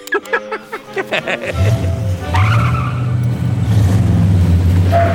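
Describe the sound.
A car in a dubbed cartoon speeds off with skidding tires: a quick run of short bursts gives way to a sustained, loud skidding rush with squealing tones.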